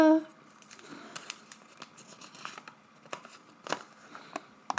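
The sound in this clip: Paper name slips are rustled and drawn from a cup, producing many light, crinkling paper scratches and taps at an irregular pace, with a voice heard briefly at the start.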